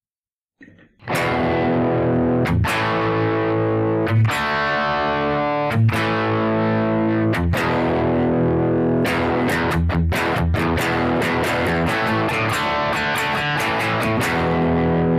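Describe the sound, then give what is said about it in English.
Electric guitar with heavy distortion plays classic rock power chords on E, A and D. Several ringing chords are struck at a slow pace, then quicker repeated strums follow. The guitar plays alone. “so here we are with my electric guitar playing some classic rock power chords”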